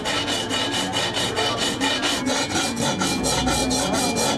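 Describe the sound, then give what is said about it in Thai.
Hand filing with a rasp, a long manual job done piece by piece: many quick, even scraping strokes in a steady rhythm, loud and continuous throughout, with no voices. “งานตะไบนี่เป็นงานมือนะคะใช้เวลาประมาณ 2-3 ชั่วโมงต่อ1ชิ้นนะคะ”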